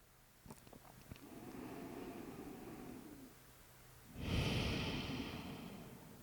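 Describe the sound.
Slow, deep breathing during a guided relaxation exercise: one long, soft inhale followed after a brief pause by a fuller, louder exhale, alone and steady.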